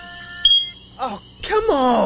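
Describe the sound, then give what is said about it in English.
A smoke detector with a dying battery gives one short, high, piercing chirp over a faint steady tone, followed by a person's exasperated groan and speech. “it's your smoke detector battery dying at 3 a.m.”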